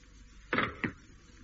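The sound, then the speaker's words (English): Two short, fairly faint clunks as a main door is eased open to break a vacuum and let outside air seep in slowly, the second knock softer and quicker than the first. “Just ease the door enough to break the vacuum. Yeah. Let that air, or whatever it is out there, come in as slowly as possible.”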